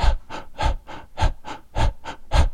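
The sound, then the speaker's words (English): Staccato breathing demonstrated by voice, a steady series of short, sharp breaths in an even rhythm, each burst quick and breathy with a brief gap between them. “And that type of breathing is like a staccato breath.”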